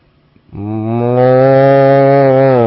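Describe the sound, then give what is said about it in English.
A cow lets out a single long, loud moo that begins after a brief near-silent moment and holds a steady, low, droning pitch to the end, heard alone. “Shasta District Fair, but you got to hear the mooing sound first”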